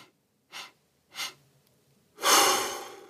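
Breaths are drawn in during a breathing exercise: two short, quiet intakes spaced apart, then a longer, louder and noisier breath.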